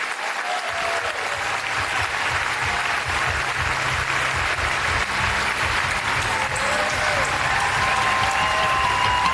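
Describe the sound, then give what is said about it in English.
Sustained audience applause welcoming a speaker to the stage at a live event on civil rights and American democracy, a dense, steady clatter of many hands clapping that stays loud for the whole stretch. “Ladies and gentlemen, it is my honor to welcome to the stage the Vernon Jordan Distinguished Professor in Civil Rights, the founder of the 14th Amendment Center for Law and Democracy at Howard Law School. Please give it up for Sherrilyn Ifill.”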